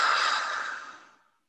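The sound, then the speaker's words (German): A single long, breathy exhalation from a deep breathing exercise, in through the nose and out through the mouth, starting full and steady and then fading gradually to silence. “Und dann atme hier noch dreimal tief durch die Nase ein und durch den Mund wieder aus.”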